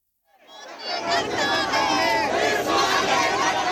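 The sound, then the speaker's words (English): A loud crowd of protesters shouts at an opposition and activist demonstration in India demanding the election commission head's resignation. The noise rises quickly from silence into a sustained, dense roar of many voices. “opposition parties and activist groups are protesting across the country.”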